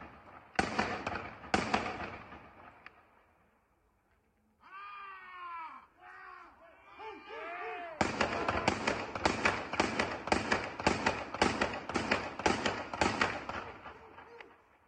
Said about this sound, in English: I don't know that it's recommendable to shoot a shotgun like this in the air, just above your head.